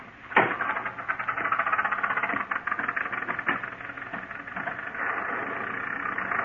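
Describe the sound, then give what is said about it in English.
A car motor running while the car is stopped in a muddy storm: a steady, mid-pitched engine rumble with a sharp knock near the start, then an even hum throughout. “Maybe you better stop and let me have a look under the hood. All right. Shall I turn off the motor? No, not yet.”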